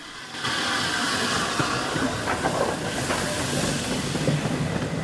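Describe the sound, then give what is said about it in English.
A historic steam locomotive hauling about a dozen maroon carriages rumbles past a short platform on the single line to Highley, a steady loud rumble and hiss setting in early, with faint rhythmic clacking of the wheels throughout. “The historic locomotive and its dozen or so maroon carriages rumble past a line of milk churns at the end of the short platform.”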